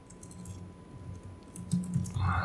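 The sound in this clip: Keyboard typing as someone enters a Google search on a computer: faint, quick clicking keystrokes over a low steady hum, growing a little louder near the end.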